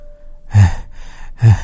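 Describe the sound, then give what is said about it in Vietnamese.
A man gasps and pants as he steadies himself. A few heavy, breathy gasps sound alone, with loud sharp intakes separated by a softer exhale. “Hắn ta lấy lại tinh thần, mau chóng ổn định lại cơ thể, hít từng hơi một rồi thở hổn hển.”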